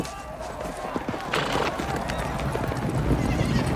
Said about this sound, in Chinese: 看，骑马的苏格兰佬都跑了